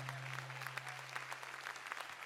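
A church audience applauds, a dense, even patter of many hands clapping that holds steady throughout, fairly faint, over a low constant hum.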